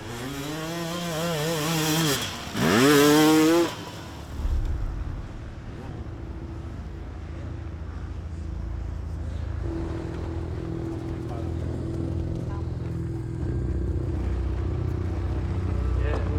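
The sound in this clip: A motorbike engine at a race pit stop starts, revs with a wavering pitch for a few seconds, then cuts out, leaving a broad low rumble of engine noise afterward.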